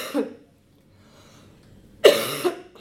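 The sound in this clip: Coughing from a throat tickle: a short cough, a quiet pause, then a stronger, harsher burst of coughs, all fairly loud and alone.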